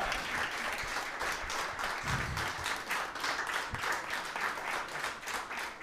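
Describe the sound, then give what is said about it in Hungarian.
Audience applause, a dense and steady patter of many hands clapping at an even level for the whole clip, with no talking over it. “Tudtam, hogy ezt meg fogjátok tapsolni”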